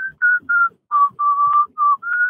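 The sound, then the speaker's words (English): A person whistles while working, producing a short tune of several sustained, clear notes with brief gaps between them, loud and alone. “Is he whistling? He's whistling while he works.”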